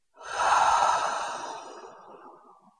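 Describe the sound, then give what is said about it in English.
One long audible breath is heard during a guided relaxation exercise. It is an airy, sigh-like rush of breath that swells quickly, then slowly fades away over about two seconds, with no voices. “Do that one more time. Breathe in and out with sound.”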